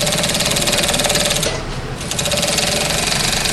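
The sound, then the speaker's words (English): A sewing machine stitches fabric masks in a fire department sew shop: a loud, rapid and steady mechanical chatter that briefly slows and eases for a moment midway before resuming at full speed. “as they get wear and tear, we use the sewing machines to make repairs.”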